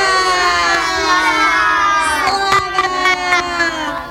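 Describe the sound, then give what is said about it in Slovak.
Dwarfs cheering and celebrating in a children's fairy-tale audio story, several excited high-pitched voices shouting together in loud, overlapping bursts. “Trpaslíci sa začali radovať a oslavovať.”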